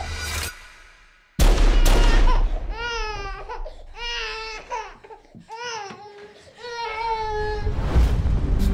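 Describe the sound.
A baby cries in a series of loud, high wails with wavering pitch, several bursts in a row.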